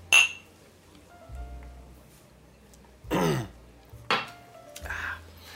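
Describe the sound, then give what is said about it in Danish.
Glasses clink once in a toast, a single bright, ringing chime at the very start, followed by a few louder breathy throat and vocal noises. “skål. Skål!”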